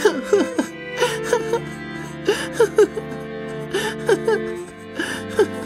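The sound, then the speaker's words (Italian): A young boy cries with many short, gasping sobs and whimpers. The breathy catches come in uneven clusters with brief pauses between them. “Perché stai piangendo?”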